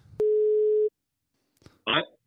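A telephone line tone while calling someone, a single steady mid-pitched beep lasting under a second, followed by a brief click and a short noisy burst.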